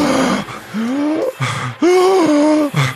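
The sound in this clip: A voice imitates fast zombies gasping to breathe in, with a few strained, rasping, voiced gasps and groans. They run back to back, wavering in pitch, loud and alone.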